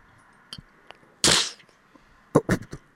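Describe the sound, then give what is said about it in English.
Video game gunfire: a loud, crackling blast stands out after a few faint clicks, followed a second later by a couple of sharper, quick cracks. “Oh, holy shit. That guy just shot himself in the head.”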